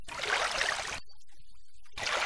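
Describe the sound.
Water sloshes as a person wades through shallow water among mangroves: a steady swishing splash for about a second, then a short near-silence before the sloshing starts again.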